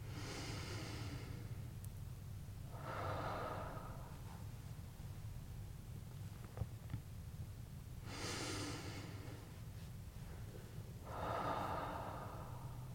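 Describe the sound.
Slow, deep breathing during a guided chakra exercise comes through as a few long, airy inhales and exhales, faint and soft over a steady low hiss, with long quiet gaps between breaths.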